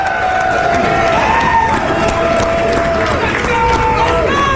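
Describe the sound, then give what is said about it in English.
A large studio audience cheers and shouts in a dense, continuous roar. Voices rise above the crowd noise, and it stays loud throughout. “You know what's shocking? That we got 15,000 people in here today. That's what it sounds like.”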